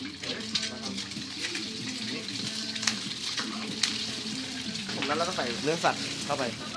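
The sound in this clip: An egg frying in hot oil in a very hot wok, giving a steady sizzling hiss with brief crackles, heard under a person talking throughout.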